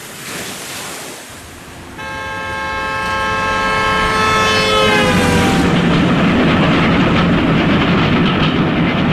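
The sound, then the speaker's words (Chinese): A train roars past across open country, a loud rumble that swells and holds, with a long horn blast sounding through the middle and dipping slightly in pitch as it goes by. “列车呼啸着掠过大地”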